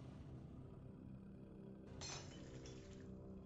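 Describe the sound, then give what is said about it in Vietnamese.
Dishes clattering and cracking in a sink: one sudden sharp crack and clatter near the middle, followed by a bright ringing tail that fades over a steady low background hum. “Những tiếng bát đĩa va chạm vang lên lạch cạch, tiếng xẻ nứt nơi bồn rửa”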